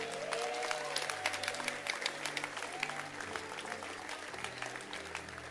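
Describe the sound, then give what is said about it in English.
A crowd clapping hands in dense, rapid applause, many overlapping claps forming a steady, even roar that holds throughout without a break. “Hey, let's clap our hands.”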